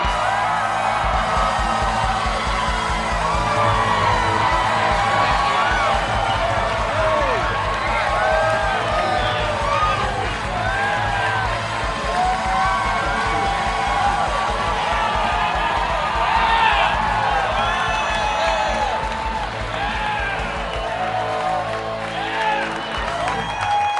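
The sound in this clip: A live studio audience at a Packers Live show cheers, whoops and applauds to welcome Aaron Rodgers. The dense, loud crowd noise holds steady for the whole stretch, with scattered yells and shouts rising above the clapping.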